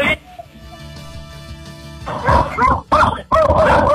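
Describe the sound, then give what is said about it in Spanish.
Several dogs bark fiercely behind a door right after a knock at a house, with a few loud, harsh bursts in the second half following a quieter stretch, mixed with people talking. “Tienen una agresividad de estos perritos. Apenas hemos tocado la puerta y empiezan a ladrar de una manera feroz.”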